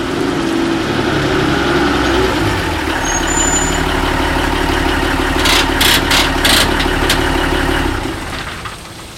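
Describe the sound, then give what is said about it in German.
A delivery van's engine runs while the van reverses up to a loading ramp, a steady, loud, low rumbling drone that holds evenly before cutting away near the end. “Altmaier fuhr den Lieferwagen rückwärts an die Laderampe.”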